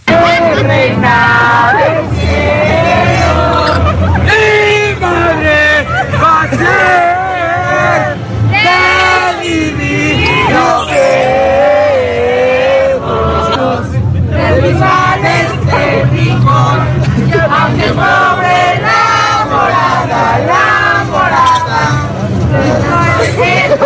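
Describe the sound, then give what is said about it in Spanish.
Mexican football fans chant and sing posada litanies in unison as they crowd slowly through the exits of a packed FIFA Fan Fest. Overlapping voices and constant crowd babble keep it loud throughout. “el humor mexicano pasó lista de presente en las apretadas filas que avanzaban en las salidas de este FIFA Fan Fest, adelantando algunos meses las letanías para pedir posada. Escuchemos.”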